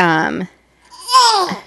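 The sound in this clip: A baby babbles at a microphone in two short voiced bursts separated by a brief pause, bright and fairly loud.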